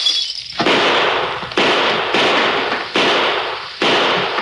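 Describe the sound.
Rifle and six-gun shots in a Western shootout fired from a doorway and a window: a rapid series of loud, sharp bangs, each with a sustained crackling tail.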